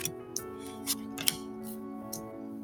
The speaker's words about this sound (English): So I'm gonna put down some cards here.